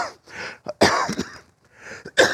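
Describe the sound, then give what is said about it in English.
A person coughs repeatedly in a series of harsh, loud bursts separated by short pauses, some coming in quick pairs. “I apologize for my coughing.”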